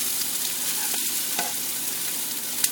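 Onions frying in a pan, a steady, even sizzle and crackle of hot oil that runs throughout, with one small sharp tick near the end.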